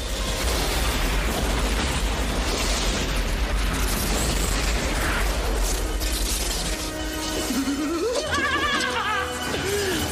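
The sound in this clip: Real explosions in a film action sequence, a loud, dense and continuous wall of booms, bursts and crashing debris that keeps rumbling with no pause.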